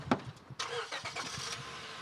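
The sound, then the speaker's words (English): A car engine starts with an initial click, then catches with a burst of noise and settles into a steady idle. The car is one of those carrying opera audience members in downtown Los Angeles. “I get into one of the 24 cars that are carrying audience members on the opera's 3 performance”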